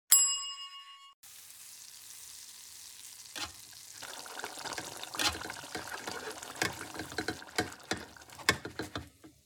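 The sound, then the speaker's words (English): Cabbage frying and sizzling in a pan; a bright chime-like ding rings first, then a quiet hiss builds with many irregular crackles and pops growing denser and louder. “All right, we're doing fried cabbage.”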